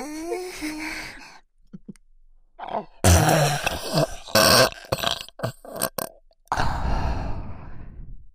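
Loud, drawn-out human burps: a few rough, guttural bursts of uneven length, with brief gaps between them, following a short voiced sound at the start.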